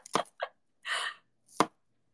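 Squeaky green onions being chopped with a knife: a few quiet, crisp cuts spaced irregularly, one longer scraping stroke in the middle, with silence between them.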